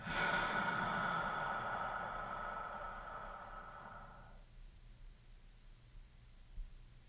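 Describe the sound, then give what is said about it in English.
Slow, deliberate breathing during guided meditation, heard as one long, airy, hissing breath lasting several seconds that gradually fades into near silence. “Again, inhale for 3 seconds, and exhale for 6.”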